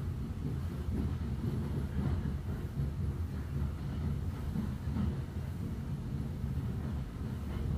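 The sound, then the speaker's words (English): Hogwarts Express train moving at a gentle, rhythmical pace, heard as a steady, continuous low rumble of the carriages with no voices. “And the Hogwarts Express settles into a gentle, rhythmical pace.”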